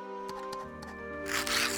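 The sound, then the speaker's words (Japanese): A sheet of paper is handled to make lottery slips. A short burst of crinkling and rustling near the end stands out over a soft, steady tonal background. “俺がくじ作るぜ。紙あるか？紙。”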